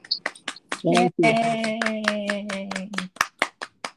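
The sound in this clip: Clapping from an audience celebrating a birthday, with sharp separate claps at the start and end around a steadier stretch where a voice holds a cheering tone.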